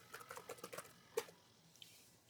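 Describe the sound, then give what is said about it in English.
Typing an email on a computer keyboard: a quick run of light, faint key clicks, then one sharper keystroke and a last soft tap, with no voices. “Could you demonstrate that right now? Yeah. Just type it in my email?”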